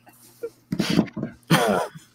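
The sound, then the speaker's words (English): A person coughs a few times, short rough bursts with a brief throat-clearing sound between them, the last cough the loudest, alone over a faint steady hum. “Excuse me why I cough.”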